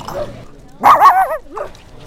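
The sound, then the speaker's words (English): A puppy whimpering and yelping at a crowded conference wellness event: a loud, wavering high cry followed by a shorter, softer whine, with faint voices in the background. “one of those things right now is you holding a puppy”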